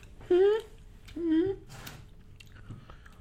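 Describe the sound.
Someone chews a piece of galangal, the Thai ginger used in curries. The soft, quiet chewing is broken by short hummed voice sounds.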